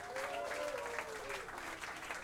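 Audience applause for a Jyväskylä collective at a jazz club night: dense, steady clapping that stays at an even level throughout, without pauses.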